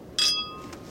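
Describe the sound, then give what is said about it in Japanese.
Glasses clink together in a toast at a tasting, one bright, ringing strike whose high tones linger and slowly fade, followed by a much fainter second touch. “チンチン。乾杯。チチン。”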